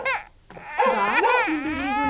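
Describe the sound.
A baby girl fusses and cries for her bottle in a smoky home, with wavering high-pitched wails and whimpers after a short dip near the start, continuing loud and unbroken to the end.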